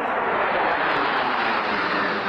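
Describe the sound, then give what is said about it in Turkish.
Four US Air Force F-16 fighter jets fly low over a stadium during national anthems before a match. Their engines make a loud, continuous, dense roar that stays constant from start to finish. “Karşılaşma öncesinde ABD Hava Kuvvetleri'ne ait 4 F-16 savaş uçağı milli marşlar sırasında stad üzerinde alçak uçuş yaptı.”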